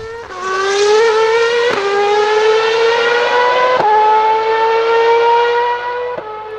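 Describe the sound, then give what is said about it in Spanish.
A racing car engine at the Jarama circuit wails loudly in a high, continuous tone that climbs steadily. It breaks sharply at three gear shifts, then fades slightly near the end. “Los motores rugen y rugen.”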